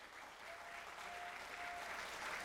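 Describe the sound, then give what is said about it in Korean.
Audience applause at an encore of a traditional Korean pansori singing performance: dense, even clapping that holds a steady, fairly faint level for the whole stretch, with no voices standing out. “박수 막 보내시네.”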